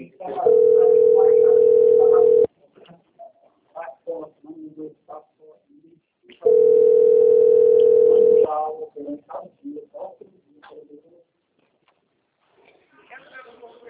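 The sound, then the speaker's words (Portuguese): A telephone ring tone sounds on a phone call: two long, steady single-pitch tones of about two seconds each, roughly four seconds apart, with people talking between and after them. “governo de São Paulo, amiga, me ligando.”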